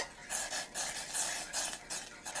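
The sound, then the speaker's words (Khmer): A spoon stirs brown sugar into liquid to dissolve it, making faint, soft scraping strokes that come in several short bursts with brief pauses between them. “យើងដាក់ស្ករក្រហមចូលបន្តិចហើយកូរវាដើម្បីឲ្យវារលាយស្ករ”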